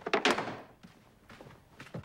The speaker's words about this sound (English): Billy's dad, Jackie, gets up and slams the piano lid shut